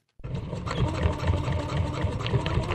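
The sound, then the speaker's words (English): A sewing machine runs while stitching a homemade fabric face mask. The loud mechanical whir starts abruptly and carries on continuously, with fast, regular low thumping underneath. “are turning on their sewing machines to make their own masks”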